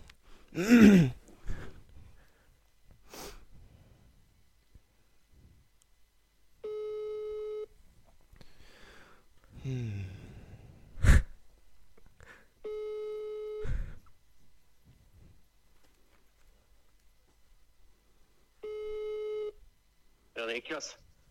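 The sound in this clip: A telephone ringback tone sounds while a call is placed: three steady, even-pitched tone bursts spaced several seconds apart. Breathy vocal noises and brief voice sounds fall in the gaps between them.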